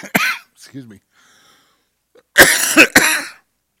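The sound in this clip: A person with a tickly throat coughs a few times: a sharp first cough, a short voiced throat sound, then two harsh coughs close together after a pause.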